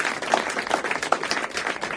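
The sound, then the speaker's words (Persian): An audience applauding while waiting for a master musician to take the stage, dense, steady clapping with a few sharper individual claps standing out. “ملت هم نشسته بودن که استاد بره بالای سن ساز بزنه، همه همچین دست میزدن.”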